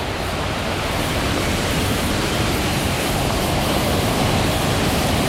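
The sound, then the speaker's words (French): Rushing water of a river with cascades, flowing past a band of majestic trees: a dense, steady roar that holds even and unbroken throughout, with no voices. “on longe une rivière qui est bordé par une bande d'arbres majestueux, cascades.”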